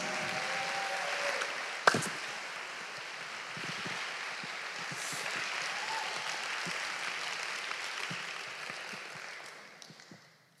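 Applause from an audience welcoming a performer, a soft, steady patter of clapping that swells slightly midway and fades out toward the end, with one sharp knock near the start.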